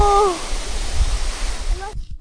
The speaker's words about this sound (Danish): Det er et vandfald, vi møder her.